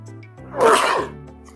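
A single sneeze: a quick breathy intake swelling into one loud, hissing burst that fades away over a steady low hum.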